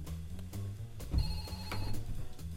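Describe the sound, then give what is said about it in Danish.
A telephone that is not plugged in rings in a studio. Faint electronic ringing tones come through briefly over a low steady hum, with no talk. “Telefonen er ikke sat til, så der er ingen grund til, at den ringer.”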